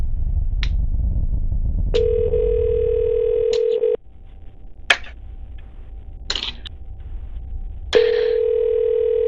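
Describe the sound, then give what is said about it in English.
An electronic telephone ringing: a steady, loud tone lasts about two seconds, then breaks off. After a gap with a few clicks and a low hum, a second ring begins over a low background rumble. “Oh, the phone's ringing.”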